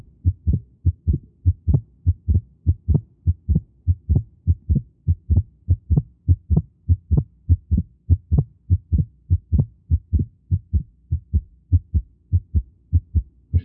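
Heartbeat sounds with a 0.06-second split repeat as many low, dull thumps in a steady, even rhythm. Each beat is a paired soft throb, clear and alone.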